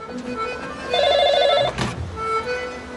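A telephone rings once with a short, warbling trill that stands out over a low background hum.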